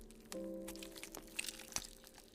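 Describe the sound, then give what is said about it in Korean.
Biting into beef jerky: a few crisp crunching, tearing bites over a low steady hum. “육포가 만져졌다. 벌어진 배달 음식으로 끼니를 충분히 해결했기 때문에 별로 배고프진 않았지만 그래도 챙겨온 김에 꺼내서 한 입 베어 물었다.”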